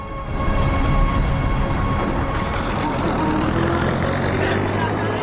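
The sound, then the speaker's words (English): An army truck carrying soldiers drives along a street at night, a steady, loud engine rumble with droning tones that holds throughout. “An army truck drives along Dorian's street with soldiers sitting in the back.”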